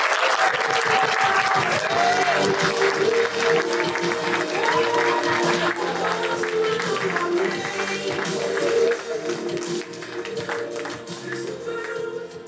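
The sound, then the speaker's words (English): Audience applause for a guest at a live talk event: dense, steady clapping from many hands, loud and continuous throughout without a break. “Should we give a big round of applause”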